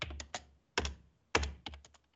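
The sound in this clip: Typing code on a computer keyboard: bursts of crisp keystroke clicks come in quick clusters with short pauses between them, fairly faint and with no voices.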